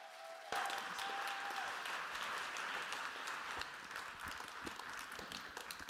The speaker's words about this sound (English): we're going to give her a big ovation tonight